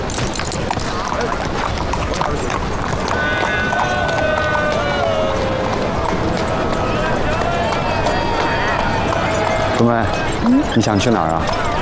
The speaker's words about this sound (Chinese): 需要帮忙吗？不用，我爹教我骑马，上马从不让人帮忙。